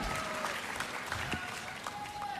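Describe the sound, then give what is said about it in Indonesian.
An audience applauds at an Indonesian concert with steady, dense clapping throughout, while a man speaks over it and faint instrumental tones sustain in the background. “Mari tepuk tangan ya penonton.”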